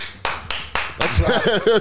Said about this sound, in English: what a funny thing that we've all learned by doing podcasts is after you talk shit, just the clap so you know when to start